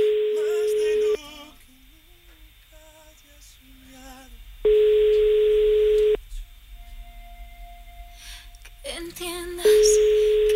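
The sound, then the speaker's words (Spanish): Telephone ringback tone on an outgoing call: three long, steady, even-pitched tones, with the first and last cut off at the edges. Between them there are gaps with voices talking. “Este es el tercer tono, creo. Si no lo coge... un tono más.”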